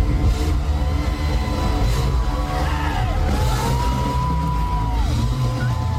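A 10-year-old boy plays drums on stage over loud, dense live music with a heavy low end. The crowd yells and whoops throughout in a sustained, energetic din.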